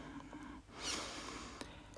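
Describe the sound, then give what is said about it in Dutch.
A slow, soft breath drawn in through the nose and down into the belly during a conscious breathing exercise. It is a single quiet, airy inhale with a faint hiss, set against a low steady background. “adem allereerst even in naar je buik, via je neus.”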